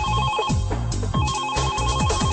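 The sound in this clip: A mobile phone ringtone plays as a loud, repeating electronic melody with short, bright notes cycling in a steady pattern, with no other sounds.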